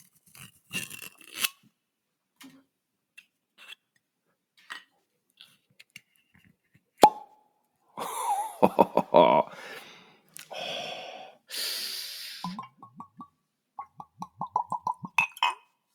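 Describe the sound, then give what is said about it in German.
A bottle being opened up close, with clinks, crinkling and tearing, a few bursts of hiss, then a run of quick rhythmic pulses near the end; no one speaks. “Und ich werde diese Flasche jetzt öffnen. Ich mache das mal hier so ASMR-mäßig.”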